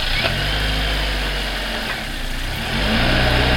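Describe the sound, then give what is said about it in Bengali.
A car engine idles with a steady low rumble and a faint vibration, swelling slightly in level near the end. “গাড়িতে উঠে বসে start দিলাম আমি।”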